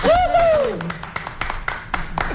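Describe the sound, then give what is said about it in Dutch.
Audience applause for the women of Tessel Gezinnen at a thank-you gathering: a loud burst of scattered clapping that opens with a single raised voice, then continues as a rough, uneven patter to the end. “De dames van Tessel Gezinnen, mag ik een groot applaus voor ze.”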